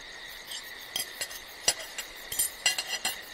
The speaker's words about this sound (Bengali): পাশের ঘরে ও কিসের আওয়াজ? আশ্চর্য, রাকিউলা পাশের ঘরে টেবিলে একটা প্লেট আর ছুরি কাটা সাজিয়ে রাখছিলেন।